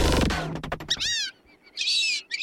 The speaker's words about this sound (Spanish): El pijije canelo, Dendrocygna bicolor.